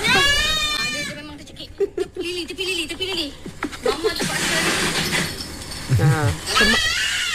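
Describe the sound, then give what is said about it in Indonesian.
A choking goat gives strained, wavering bleats in bursts, rough and uneven in pitch, while people talk over and between the cries. “Ini suara kambing tercekik eh.”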